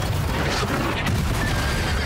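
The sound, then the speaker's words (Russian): A horse neighs as it rears during an artillery battle, its short whinny set within a dense, loud wash of rumbling, crackling noise. “Конь встает на дыбы”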